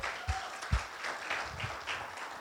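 A church audience claps to welcome first-time guests on a Sunday, with faint, scattered applause and a few soft thuds spread unevenly through it.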